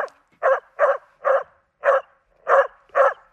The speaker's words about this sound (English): This dog sounds like this.